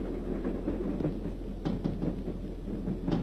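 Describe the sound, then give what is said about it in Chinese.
A military train speeds past at night: a low, steady rumble with faint rhythmic clatter bursts recurring throughout. “一列军用火车在夜色中奔驰而过”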